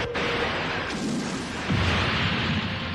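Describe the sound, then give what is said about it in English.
ULT laser weapons firing in a sci-fi battle: a dense, roaring blast of booming noise that holds steady, with a low tone sweeping downward toward the end. “Fire at will. ULT lasers, fire one.”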